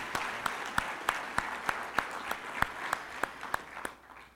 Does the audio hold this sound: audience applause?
yes